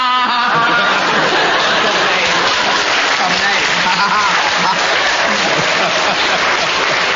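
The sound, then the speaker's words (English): A studio audience claps steadily throughout a comedy panel game, a dense wash of applause with a voice talking over it. “There's no such rule as a proper name, and you all clap because you think, oh, he just thought of that point”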